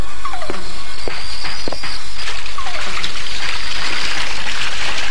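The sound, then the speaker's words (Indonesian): Warm water is poured into a bathroom water tub, making a steady, loud rushing stream with gurgles, splashes and a few sloshing knocks throughout. “Masuk dan tuang air hangat itu ke dalam tempat air di kamar mandiku itu.”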